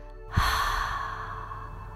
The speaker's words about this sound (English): And breathe out through the mouth.